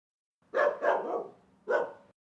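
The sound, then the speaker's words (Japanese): A dog barking from the floor above in an apartment building: three short barks, the middle one longer and drawn out, muffled and moderately loud with silence between them. “あれ、上の階から犬の鳴き声がしますよ。”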